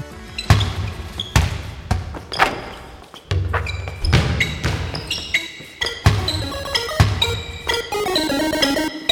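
A short basketball segment jingle built around a bouncing ball, with sharp rhythmic thumps of the ball mixed with musical tones and ringing notes in a lively, uneven pattern.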